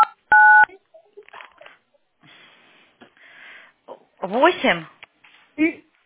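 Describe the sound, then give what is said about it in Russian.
A telephone keypad tone sounds as a number is dialed. One clear, steady dual-tone beep comes first, followed by fainter scattered sounds and quiet talk. “Подожди, сейчас у меня рядышком. Оль, пиши. Сейчас я буду набирать.”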